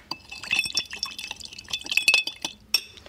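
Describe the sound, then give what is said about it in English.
Bitters are stirred into a smoky cocktail in a glass, giving many light, high clinks in an irregular rhythm with faint liquid swishing between them. “Once you've got your bitters in there, give it another little stir.”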